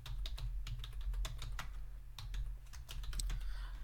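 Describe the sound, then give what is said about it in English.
Rapid typing on a computer keyboard: a dense, irregular run of many sharp key clicks over a steady low hum, with no voices. “Just type in Harlequins rugby.”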